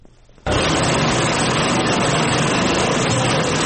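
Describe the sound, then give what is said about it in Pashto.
Sewing machines running in a clothing factory: a loud, dense, continuous mechanical whir that starts abruptly after a brief quiet moment, then holds steady and unbroken with no talk. “دلته یو شپې ځوانان د جامو ګنډلو ماشینونو ته ناستي.”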